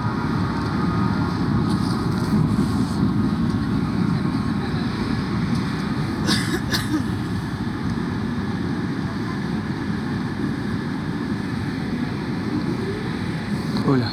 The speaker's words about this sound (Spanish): estoy en el subte